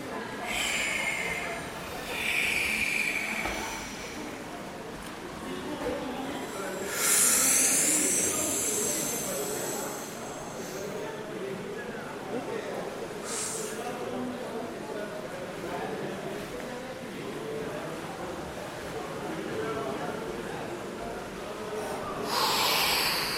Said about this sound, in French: On dit, je fais un souffle complet, j'expire.